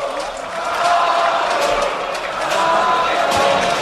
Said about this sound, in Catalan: Sabio, crida al públic.